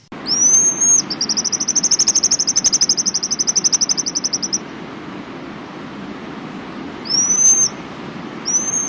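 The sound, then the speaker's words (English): High, thin whistled calls of a pigeon guillemot: a short whistle, then a long, rapid trill held on a steady pitch for about three and a half seconds, then two more brief whistles near the end, over a low, steady background hiss. “That sound is a pigeon guillemot.”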